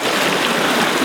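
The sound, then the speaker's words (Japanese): Steady rushing wash of water from a wooden two-masted pearl lugger sailing at sea in the Torres Strait, a dense, even hiss with no distinct strokes or voices, holding level for about a second. “これは帆をかけて海を進む船の音です。トレス海峡諸島を象徴する音でもあります。”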